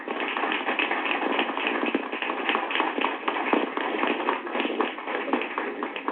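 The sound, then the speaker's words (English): An audience applauds to welcome a speaker: a steady, dense patter of many hands clapping that carries on without a break from start to finish. “without any further delay, let's put our hands together and welcome Dr. Amos Wilson”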